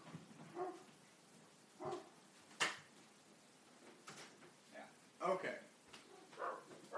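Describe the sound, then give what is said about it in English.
A female dog barks indoors behind a shut door, giving several short, muffled barks at irregular intervals while a person talks over them. “I'm sorry if you hear all this dog barking. This is why I didn't want to let them outside.”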